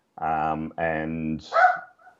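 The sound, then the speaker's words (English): A dog barks in two long, steady, tonal bursts, followed by a shorter, higher yelp that trails off. “Sorry, that's my dog.”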